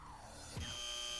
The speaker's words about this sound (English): Oh, you nearly said it there after the buzzer.